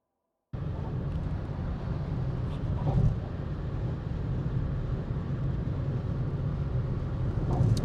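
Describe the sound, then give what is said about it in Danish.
Steady road and wind roar fills a car driving up onto the bridge between Denmark and Sweden. It starts abruptly after a moment of silence and holds even, with a few faint ticks. “Nu kører jeg op over broen og befinder mig her mellem Danmark og Sverige.”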